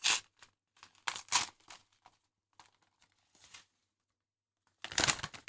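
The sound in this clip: Paper crinkling and rustling as a gift of mustard cress for drawing is unwrapped, in a few short, quiet bursts with gaps between them and a louder crackling burst at the end.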